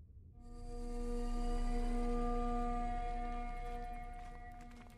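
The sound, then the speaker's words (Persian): A dust distortion enemy in a mobile spell-casting game, one that fire can destroy, makes a faint, sustained humming drone with layered tones that swells and then slowly fades, with a few light clicks near the end. “این صدایی که میشنوید صدای دیستورشن خاکه که با آتیش میشه نابودش کرد.”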